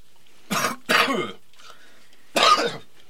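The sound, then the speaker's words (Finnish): Three sharp, throaty coughs performed by a person: two close together, then a short pause and a third. Loud, rough and breathy, with no talk around them. “Oli yskä”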